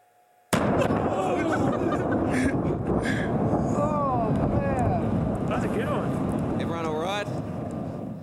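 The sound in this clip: A sudden loud explosion bursts in from quiet, then gives way to a sustained roaring rush like a surging wave, with whistling tones sweeping through the noise, played as an effect during a church sermon.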